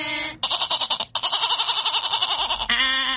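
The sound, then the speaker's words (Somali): Goat bleating: a few loud, quavering, strongly tremulous bleats follow one another with brief gaps, each a wavering nasal cry heard alone without talk. “ridu waxay u cidaa”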